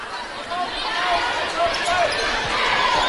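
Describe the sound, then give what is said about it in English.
A basketball being dribbled on court during a high school game, Warren at DeKalb, late in a close contest; bounces sit under steady, loud crowd noise with no clear gaps. “still at the left wing, dribbling it out”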